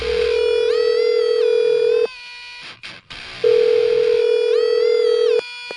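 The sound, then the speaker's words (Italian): A telephone dial tone plays while a number is dialled: a loud, steady tone sounds for two long stretches. A brief break with a few clicks separates the stretches, and there is no talk. “Regia, vai, fatemi il numero, forza.”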